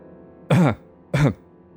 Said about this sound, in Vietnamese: anh khẽ ho một tiếng rồi nói